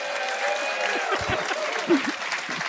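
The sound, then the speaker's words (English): A live audience at a roundtable panel broadcast from the Hearst Media Center on the Times Union newspaper campus in Colony, New York, claps in steady, sustained applause, with a few voices calling out among the clapping. “Before, listen to them, a live audience.”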